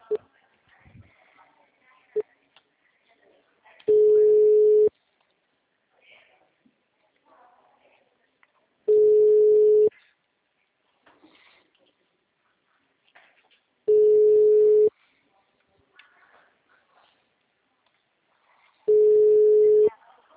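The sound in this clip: A ringback tone plays while a telephone call is placed. Four long, steady beeps of the same pitch come at even intervals of about five seconds, with faint scattered background noises in the gaps.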